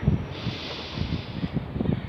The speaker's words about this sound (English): Breathe in.